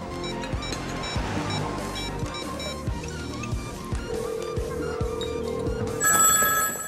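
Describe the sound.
A phone rings with repeated rhythmic bursts throughout, joined midway by a steady sustained tone, and the ring grows brighter and louder toward the end.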